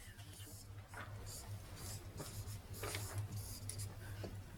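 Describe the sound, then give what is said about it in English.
Someone writes by hand, giving faint, soft scratching strokes, a few at a time, over a quiet, steady low hum. “One thing I have to write down.”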